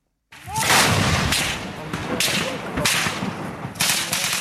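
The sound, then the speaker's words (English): Gunfire and artillery from a battle between government and opposition forces in Homs, Syria: several loud, sharp bursts and booms over a constant rough roar, in irregular clusters. “Sound of battle from Homs a couple of days ago. Government versus opposition.”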